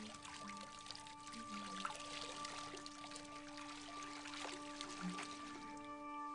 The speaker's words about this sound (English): the old woman washes Robin's hair, pouring a jug of water over her head